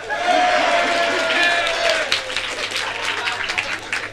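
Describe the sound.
An Apollo audience gives loud, sustained applause and cheering to welcome a comedian onto the stage. The clapping stays steady for the whole stretch, with crowd noise mixed in.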